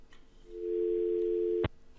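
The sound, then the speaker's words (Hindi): A telephone line tone sounds after a call disconnects: a single steady low-pitched electronic beep holds for about a second and ends abruptly with a click, faint over quiet line noise. “Okay so ये call disconnect हो गया है।”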